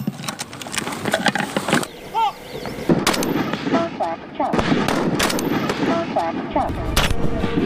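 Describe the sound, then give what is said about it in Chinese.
Sharp gunfire cracks from a Type 191 rifle aimed at a target 100 meters away, in wind, snow, fog and low temperature. Many loud shots come in a rapid cluster, followed by scattered single shots, with voices speaking in between. “100米外，靶心比指甲盖还小。风雪、大雾、低温，但191式步枪性能硬核，弹道精准”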